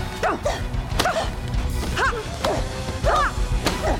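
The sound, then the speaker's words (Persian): Sharp whacking strikes in a combat bout, including a blow to the back of the head. A few crisp impacts cut through busy background noise. “امتیاز نداره، ضربه به پشت سر بود.”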